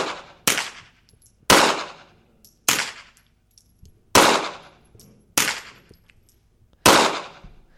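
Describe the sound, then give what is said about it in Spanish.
Six sharp pistol shots, alternating between an unsuppressed gun and one fitted with a silencer, ring out alone at a steady, spaced rhythm. Each is a loud crack with a short decaying tail. “Vamos alternando un disparo de pistola normal y luego otro silenciado.”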